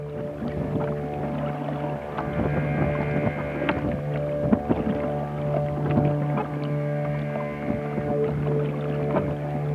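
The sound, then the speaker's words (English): Oars rowing a boat on a lake in Norway, with repeated soft splashes and knocks over a steady, sustained humming tone that runs throughout at moderate loudness. “he just recorded rowing in a boat on a lake in Norway”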